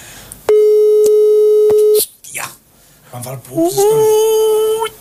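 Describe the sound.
A telephone busy tone follows a phone connection lost through lack of coverage: one steady, mid-pitched tone holds for about a second and a half, then people talk.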